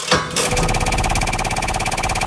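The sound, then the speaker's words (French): A game show wheel spins on a French quiz program: a short burst opens, then rapid, evenly spaced ratcheting clicks run loud and unbroken to the end. “moi je vais lancer une roue tout de suite, puis vous allez dire stop.”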